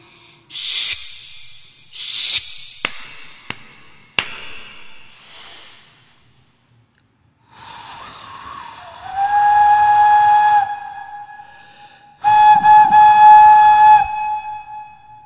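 A passenger train sets off with a few sharp bursts of loud steam hiss and some clicks, then two long, steady whistle blasts separated by a short pause; no voices.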